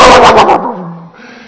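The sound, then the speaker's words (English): Dog barking: a rapid burst of a few sharp, loud barks that then fades into a quieter, lower tail. “Have you ever walked by in your neighborhood, like that yard that has the barking dog, and it like you're walking through there, it's all peaceful and quiet, and then all of a sudden,”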